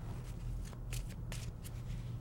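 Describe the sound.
Tarot cards are shuffled before a reading: faint, soft papery riffles and slides come in a few quick bursts over a steady low hum.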